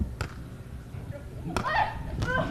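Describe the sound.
A volleyball serve is struck during a match, heard as a few sharp slaps over a steady background of voices.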